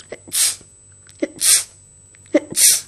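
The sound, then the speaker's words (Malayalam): A voice imitating sneezes three times in an even rhythm, demonstrating different sneezes. Each starts with a short voiced lead-in and ends in a loud, breathy, hissing burst. “പിന്നെ വേറൊരു തുമ്മല്,”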